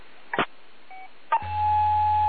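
Beeping tones on a phone line: a couple of clicks and one short, faint beep, then a steady tone that holds to the end over a low hum.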